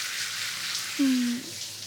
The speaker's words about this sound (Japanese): お湯かけます。お湯、熱くないですか？